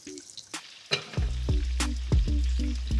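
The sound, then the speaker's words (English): Breaded pieces dropped into hot oil sizzle and fry, a few sharp clatters at the start giving way to a loud, steady crackling hiss that carries on to the end. “How long would you fry them in there”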